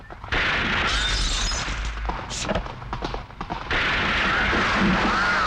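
Gunshots ring out during shooting practice on a hilltop, a quick series of sharp cracking reports over a dense, steady wash of noise.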